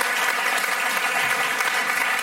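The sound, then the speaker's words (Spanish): Audience applause at a theater event honoring a theater company that won a national award: loud, dense, continuous clapping sustained throughout without a break. “Vamos a darle un aplauso a Teatro del Barrio.”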